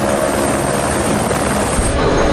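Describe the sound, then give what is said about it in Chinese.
Loud, steady helicopter roar as it ferries engineers and equipment up Saishiteng Mountain to a 4,200-metre site, a dense continuous engine and rotor noise with no voices. “田才让和邓理财申请使用直升机，将工程人员和设备运到塞什腾山海拔4200米的 C 点”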